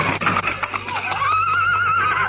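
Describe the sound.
Horse neighing: one sustained, wavering whinny with a bright, buzzy tone that holds loud from start to end, with no talk over it.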